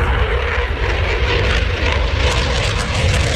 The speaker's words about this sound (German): So klingt es, wenn ein Eurofighter startet.